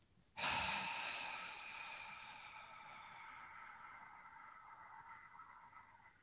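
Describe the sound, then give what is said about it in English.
A long, steady inhale through the nose during a breathwork exercise for the rib cage and core. It starts abruptly as a breathy hiss, peaks at once, then eases slightly and holds for several seconds, alone without talk. “So I'm taking an inhale through the nose”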